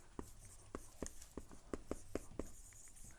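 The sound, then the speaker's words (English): Writing by hand: many short, scratchy strokes in a quick, fairly regular rhythm, quiet and heard alone without talk. “Let me just write this down.”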